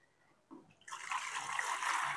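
Alkaline water, slippery to the touch and salty, is poured into a container. A brief soft splash comes first, then a steady, bright rushing pour that holds to the end.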